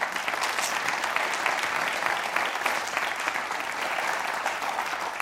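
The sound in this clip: Audience applause welcoming a man to the stage: dense, steady clapping that carries on evenly throughout without voices over it.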